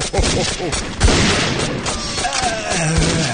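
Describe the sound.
Gunfire in an audio drama: a dense, loud fusillade of shots with a few sharp booming cracks. Voices are faintly mixed in.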